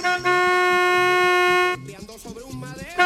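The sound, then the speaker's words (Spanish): A vehicle horn blares in one long, loud, steady honk on a street, then cuts off and gives way to voices. “Oiga, le están pitando, niño, niña, que hay que salir.”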